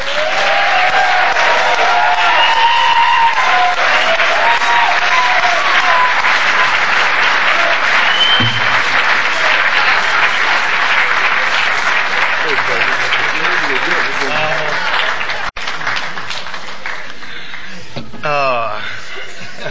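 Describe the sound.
Sustained audience applause welcoming a speaker, a loud, dense clapping with chuckles and laughter mixed in, holding steady for about fifteen seconds before thinning out as a voice begins near the end.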